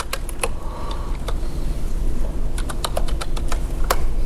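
Typing on a computer keyboard as spreadsheet entries are keyed in during a lecture: a few scattered sharp key clicks, then a quicker run of many crisp taps, all over a steady low hum with no talking.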